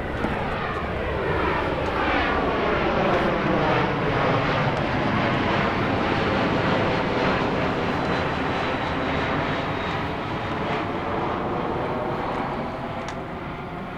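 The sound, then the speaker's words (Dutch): An airplane flying overhead gives a loud, continuous engine roar for the whole fourteen seconds, its droning tones sweeping slowly in pitch, easing slightly near the end. “Ah, vliegtuig!”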